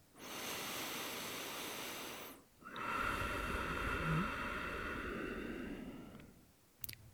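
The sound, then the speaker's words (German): Heavy breathing, first a long rushing breath through the mouth, then after a short pause a longer, softer breath drawn through the nose, both airy and sustained, with a small click at the end. “Dir wird wahrscheinlich direkt auffallen, dass ich, wenn ich durch den Mund atme, sehr viel schneller atme und meine Nasenatmung sehr viel langsamer ist.”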